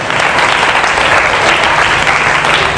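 A church audience applauding in acclaim of God, with loud, dense clapping that stays steady and unbroken through the whole clip.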